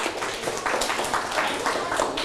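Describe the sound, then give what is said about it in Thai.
Applause from a group during a group activity: dense, fairly loud clapping that is brief and continuous. “โอ้โหปรบมือครับ”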